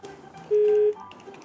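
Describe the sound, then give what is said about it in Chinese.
A single short, steady telephone tone sounds during a call, held for under half a second and clearly louder than the faint background noise around it. “是你的电话声，是咱的电话声”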